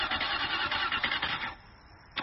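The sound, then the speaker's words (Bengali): A stalled car's engine cranks but fails to catch: a whirring, pulsing churn that cuts out partway, a stretch of near quiet, then a brief final burst. “সুখী কয়েকবার start দেওয়ার চেষ্টা করল বটে, কিন্তু গাড়ি start নিল না”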